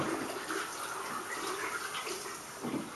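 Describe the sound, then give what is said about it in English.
Running water from a tap splashes over hands being wet for washing, a faint, steady hiss and gush with slight swells in the flow. “So firstly guys, it's important that we wet our hands.”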